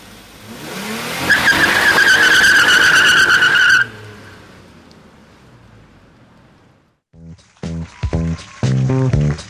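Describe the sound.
A car pulls away with squealing tires, loud and steady for about four seconds before the noise drops off and fades.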